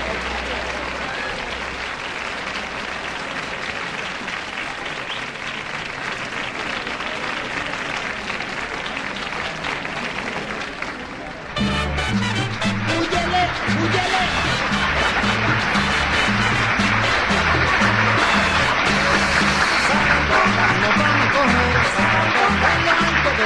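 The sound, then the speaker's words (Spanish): Audience applause at a live show: loud, dense clapping that runs throughout, growing fuller and more intense about halfway through. “Se sienten los primeros aplausos.”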